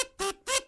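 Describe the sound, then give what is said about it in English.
A kazoo sound effect gives three short, buzzy, nasal honks in quick succession, the first clipped at the start and the last two fuller and evenly spaced. “we're going to repurpose the kazoo sound effect from the retired news segment for this.”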